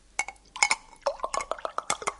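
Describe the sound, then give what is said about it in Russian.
Water poured from a glass carafe into a drinking glass: a quick series of bright clinks and small splashy, trickling sounds, short and uneven, with quiet gaps between. “Взял графин, льет из него воду в стакан.”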